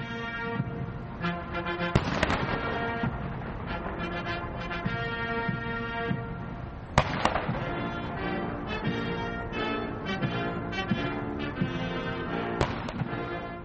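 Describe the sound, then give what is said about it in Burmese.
Cannon salute fired at a ceremony as a former US president's state funeral arrives at Capitol Hill in Washington DC. Three heavy booming reports come about five seconds apart over a steady, dense background sound. “Capitol Hill ကိုရောက်ရှိစမှာလဲအမြောက်ပစ်ပေါက်ဂုံပြုပါတယ်”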